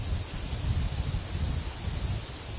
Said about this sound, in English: Do you hear the wind, which is now even slightly changing direction? Now it's coming from behind your back, in a way.